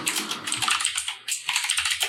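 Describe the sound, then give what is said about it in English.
Rapid typing on a computer keyboard, with many crisp plastic key clicks in an uneven stream. There is a brief pause partway through before the keystrokes resume. “I will also type it in Discord.”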